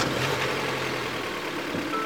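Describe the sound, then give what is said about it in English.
A car engine drones steadily from inside the car while driving, a continuous mid-pitched hum and road rush with no breaks or changes across the whole stretch. “As we climb into my car”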